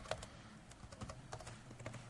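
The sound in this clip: Faint typing on a computer keyboard as a short message is entered, a handful of light, irregular key clicks over a quiet background.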